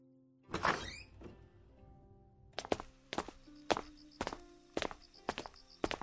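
A door is pushed open with a sharp thud that decays, then after a short pause many firm footsteps walk at a steady, even pace toward a back hall.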